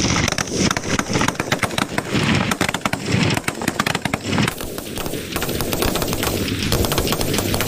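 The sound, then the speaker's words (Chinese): Rifle rapid-fire shooting during a military precision rapid-fire contest: many sharp, loud cracks in quick, irregular succession, continuing without pause throughout. “接下来要进行的就是步枪精度速射的对决，此时枪王群体四连已经做好了射击准备。 速射准备， 开始射击。”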